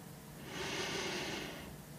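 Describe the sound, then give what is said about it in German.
A deep breath is drawn in through the nose during a guided relaxation exercise. It is one slow, steady, airy inhalation that swells and then fades over about two seconds, heard alone without talk. “Und dann atme ganz tief ein”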